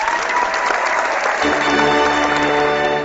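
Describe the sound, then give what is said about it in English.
Audience applause greets the host of a comic book chronicles show, a loud, dense, continuous clapping that holds steady from start to finish. “Drowned out by the applause, that's why.”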